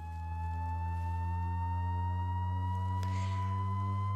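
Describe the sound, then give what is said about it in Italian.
A reproduced high whistling tone, like a home kettle's whistle, holds steady for about four seconds over a strong low hum. Its pitch creeps slightly upward, and one brief click sounds near the end. “O ancora un suono acuto come un fischio di una sirena del bollitore di casa, proprio così.”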